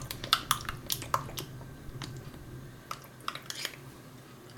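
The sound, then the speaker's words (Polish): A teaspoon stirring a mixture in a small cup while making a pizza Margherita, heard as faint, irregularly spaced clinks and taps, with a louder knock at the very end. “No a jeśli taką łyżeczkę posiadamy, to spokojnie możemy sobie wymieszać całość w środku.”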